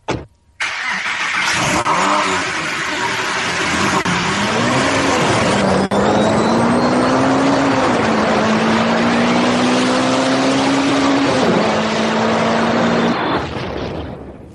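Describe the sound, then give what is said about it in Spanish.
A car engine starts with a brief crank, then catches into a loud, steady run, its pitch climbing gradually in small steps as it revs, before cutting off near the end. “Arranca el coche”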